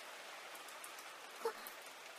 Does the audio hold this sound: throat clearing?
no